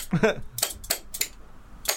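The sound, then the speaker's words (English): Spoons played as percussion, struck together in a few sharp, bright metallic clacks spaced apart, with a brief voice at the start. “We've got the spoons.”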